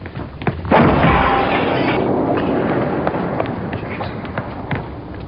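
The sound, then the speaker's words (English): A bomb explodes in a Chicago apartment with one loud, sudden blast, followed by a long rumbling roar of debris with scattered crackles that slowly fades. “It was a bomb, of course.”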